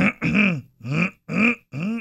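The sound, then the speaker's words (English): A man makes strained choking and gagging noises, as if something is stuck in his throat, in four rough voiced bursts with short pauses between. “See, how something stuck in his throat.”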